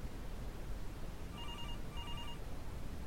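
A telephone rings in two short, high, trilling bursts, faint above a constant background hiss.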